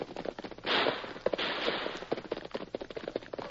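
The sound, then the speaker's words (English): Gunfire in a gunfight: many faint, sharp, brief cracks in irregular volleys, with a rushing burst of noise partway through. “We seem to have run into a gunfight.”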